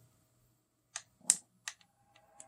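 A few sharp clicks from a button on the top of a small device with two buttons, sounding as separate quick ticks at uneven intervals, with one louder click in the middle and faint quiet gaps between them.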